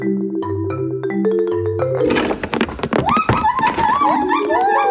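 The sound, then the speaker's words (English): A gang of gibbons making off with a marimba: low marimba notes bounce in a repeating pattern, then give way to loud clattering knocks and rising whooping calls. “That's a gang of larcenous gibbons making off with someone's treasured marimba.”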